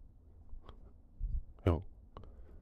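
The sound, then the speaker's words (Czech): A button clicked to switch something on and off gives a few short, faint clicks mixed with other soft, brief noises. “Jo, já tady mám to jedno tlačítko. Jo, zapnu, vypnu.”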